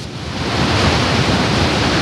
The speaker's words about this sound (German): Vor uns sieht man die Wassermassen runter ins Tal schießen oder über die Felsenwände da runterfallen.